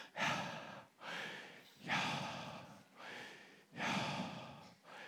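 Breathing that imitates the Hebrew name for God, Yahweh, as steady alternating inhales and exhales. Each breath is a soft, airy rush, repeated several times in an even rhythm with no speech.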